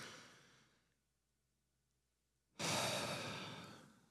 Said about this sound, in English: I just invite you all to just take a, take a deep breath, just breathe in.